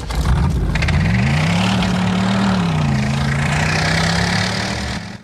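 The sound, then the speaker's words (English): A car engine drones as Max drives the Falcon off into the night. The loud, steady, low roar rises in pitch over the first second or so, then holds smoothly for the rest, with no voices. “Max drives off, leaving the captain with the pretty blonde. The feral kid watches him go from the entrance. The Falcon hurtles off into the night.”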